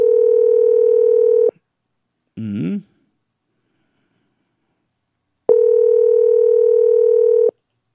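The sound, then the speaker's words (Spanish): Telephone tones from an outgoing call: two long, steady electronic tones with a buzzy harmonic edge, separated by a pause and a brief voice-like burst, then silence. “Y le estamos llamando, ¿no? Una vez más para que no nos diga que no le llamamos después.”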